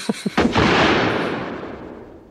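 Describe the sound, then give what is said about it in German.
A gunshot in a James Bond film scene: a couple of short sharp pops, then a loud blast whose rumbling tail slowly fades away. “Daneben geschossen, Mr. Bond.”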